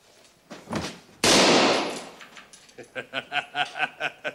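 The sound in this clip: A gunshot fired at a target rings out as one sudden, loud, sharp blast with a long hissing decay. Quieter rhythmic pulses follow it.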